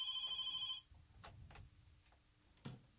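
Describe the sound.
A telephone rings with an incoming call, giving a bright electronic trill that lasts under a second and then stops. A few faint clicks and knocks follow in near quiet.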